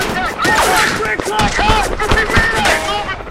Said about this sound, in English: Insurgents fire from a ridgeline. Okur, Chutsky, and Burton trade fire with the enemy.